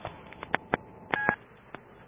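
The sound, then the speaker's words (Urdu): Cell phone keypad tones as a number is dialed: a series of short electronic beeps at uneven intervals, one held noticeably longer than the rest, with no voices. “Julia hand bag سے cell phone نکال کر chief کو کال کرنے میں مصروف ہو گئی”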